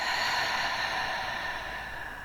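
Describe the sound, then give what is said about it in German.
A slow, deep breath taken during a guided relaxation exercise: a continuous, airy whoosh with no break, steady and fairly loud, easing off slightly toward the end, heard alone. “Und nimm ein paar tiefe Atemzüge hier tief, tief ein und wieder aus.”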